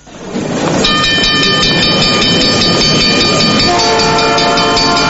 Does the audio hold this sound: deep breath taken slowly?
no